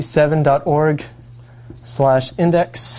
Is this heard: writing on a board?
yes